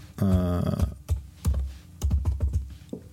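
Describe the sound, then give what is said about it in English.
Keys clatter on a computer keyboard as someone types, loud close clicks in a few uneven bursts. “Do I type quite loud? Is that too loud?”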